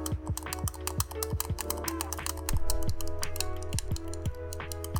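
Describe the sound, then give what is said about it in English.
A DualSense game controller clicks as its shoulder buttons and triggers are pressed again and again. The many crisp plastic clicks come in a quick, uneven rhythm over a steady low hum. “I'm gonna do a little clickety crack. You remember when I did it for my keyboard? I'm gonna do that with the controller, the DualSense controller”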